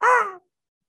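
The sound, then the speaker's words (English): A human voice imitates a quiet raven caw with one short, harsh, throaty call that fades out quickly, followed by silence. “he whispers a quick word as he strokes the raven, and it very gracefully flits and flies over to your shoulder and gives a quiet”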